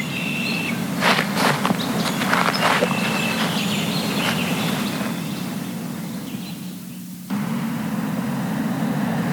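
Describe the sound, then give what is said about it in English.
Footsteps walking downtown, a series of soft scuffing steps, clearest in the first half, over a constant buzzing background. “Not wanting to be here when Sharon came back, I decided to take a walk downtown.”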